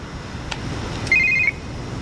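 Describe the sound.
A telephone rings with an incoming call: a single short, high electronic trill cuts through a quiet background hiss and then stops.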